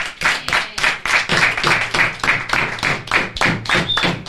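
Applause closing a radio program: loud, rhythmic clapping with many sharp, evenly spaced claps continuing throughout, and no voices over it.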